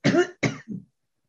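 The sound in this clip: Three coughs from a person in quick succession, the first longest and strongest, the second shorter, the third weaker and lower, then silence.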